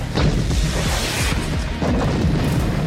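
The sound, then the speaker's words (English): Machine-gun fire in a loud, dense rattle runs almost unbroken for about three seconds, with a heavy booming low end beneath the rapid shots. “A machine gun.”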